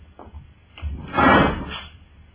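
A desk drawer slides open in a radio drama. A few soft knocks lead into a louder rumbling slide that swells and then fades away.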